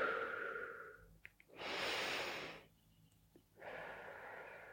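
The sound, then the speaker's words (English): Slow breathing, in through the nose and out through the mouth, as part of a breathing exercise. A few soft, airy breaths come and go, quiet, with pauses between them and no talk. “So in through your nose, out through your mouth.”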